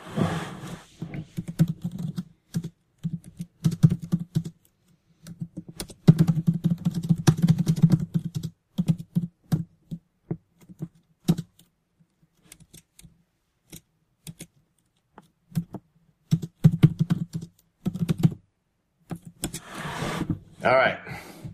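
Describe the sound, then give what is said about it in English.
Computer keyboard typing comes in irregular bursts of rapid clattering key clicks separated by short silent pauses, with a denser flurry of clicks near the end. “I'm just type chatting some answers here.”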